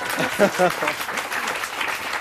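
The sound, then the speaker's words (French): Audience applause greets a novelist at a literary event for her new book, a steady burst of clapping from many hands, with a voice speaking briefly over it at the start. “Bon, bah, Sarah Gisler, applaudissez Sarah Gisler.”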